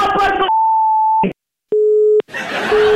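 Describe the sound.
Telephone busy tone after a call is hung up: steady electronic tones broken by gaps, with voices talking before and after.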